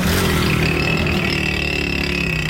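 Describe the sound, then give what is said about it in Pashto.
Loud, steady roar of motorcycles with punctured silencers and rickshaw engines, a continuous droning rumble with no breaks and no talk. “هر ډول شور، د رکشو ناکاره آوازونه، د موټر سایکلو د سوري کړل شوی سایلنسرو غړمبار”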